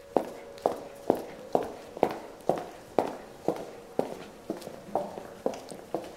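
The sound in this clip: Footsteps walking down to a basement: a steady, even procession of over a dozen crisp heel strikes, each a sharp knock with a short tail, keeping a regular walking pace throughout with no voices.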